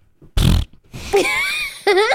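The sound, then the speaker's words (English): A voice imitates air sputtering out past a shifted soft latex sleep mask on an exhale: one short, rasping, fart-like burst, then drawn-out voiced sounds. “face fart. Yeah, it was a face fart because the mask, you know, it's like soft latex, right?”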